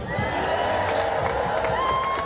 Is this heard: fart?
no